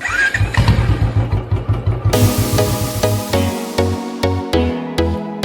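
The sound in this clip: A Royal Enfield Bullet motorcycle is started, firing into a fast run of loud, low thumping pulses that then settle into a slower, regular thump.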